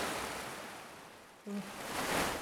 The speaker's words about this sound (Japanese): 波がどんどん大きくなってくる。ほら、大きな波が来た。今までで一番大きな波。